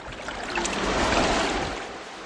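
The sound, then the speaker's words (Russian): A sperm whale's tail strikes the water with a heavy, rushing splash, a strong wave like in a storm; one broad wash of water swells and then fades over about two seconds. “Кашалот бьет хвостом по воде. Волна сильная, как в бурю.”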